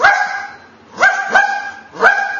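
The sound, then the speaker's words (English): Four sharp, tonal barks come from a pet dog, steady in pitch and spaced unevenly, with two close together near the middle. The barks are loud and stand alone without voices. “That's Jimmy, my dog. He came when he was a puppy.”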